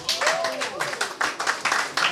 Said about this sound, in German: Applaus für Sigi!